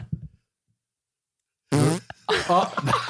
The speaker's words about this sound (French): Excusez-moi, j'ai pété.